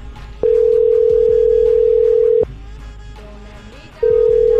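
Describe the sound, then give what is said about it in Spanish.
Ringback tone on a prank phone call being placed: a steady mid-pitched tone lasts about two seconds, stops for a pause, then starts again near the end, over faint background sound. “Vamos a marcarle otra vez. no O ahí está, ahí está marcando, ahí está marcando.”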